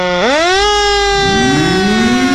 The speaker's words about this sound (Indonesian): Suara ini adalah bunyi yang dikeluarkan melalui sirene dan digunakan untuk kendaraan layanan darurat seperti ambulans, polisi, dan pemadam kebakaran.